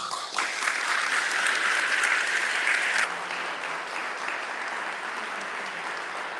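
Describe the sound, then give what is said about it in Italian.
Steady applause from an audience at a book presentation, a dense wash of clapping that is fuller for the first three seconds, then continues at a lower, even level. “facciamo un grande applauso”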